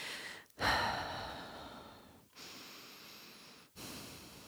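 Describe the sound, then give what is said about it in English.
Slow, deep breaths are taken together during a guided prayer. Long breathy rushes of air are separated by short silent pauses, soft and alone with no talking. “let's do that by just taking two deep breaths”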